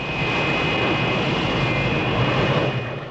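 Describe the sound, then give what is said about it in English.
A Lockheed Starfighter, a single-seat supersonic jet interceptor, taxis to a halt on an airbase, its engine a loud steady roar with a thin high whine running through it. “A US Air Force Lockheed Starfighter, a slim, stub-winged, single-seat supersonic interceptor, taxis to a halt on an airbase.”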